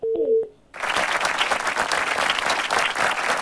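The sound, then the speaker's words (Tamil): Audience applause for a singer taking part in a show: a dense, steady wash of clapping that lasts about three seconds, preceded by a short electronic tone. “சரி, இருந்தாலும் உங்களுக்காக ஒரு claps கொடுக்கலாமா? கொடுக்கலாமா?”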